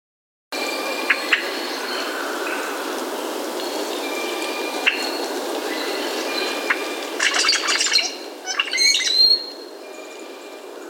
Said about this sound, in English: Short-billed Dowitcher.